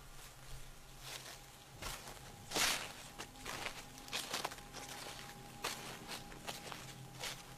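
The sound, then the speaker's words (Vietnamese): Footsteps pace back and forth on sand and gravel outside a wooden door, many faint, irregular crunching steps with one louder scuff, with no talk. “Chợt anh thấy ngoài cánh cửa gỗ tự dưng có tiếng bước chân người bước qua bước lại.”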